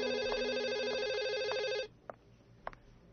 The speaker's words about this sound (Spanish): en el momento preciso en que sonaba el teléfono.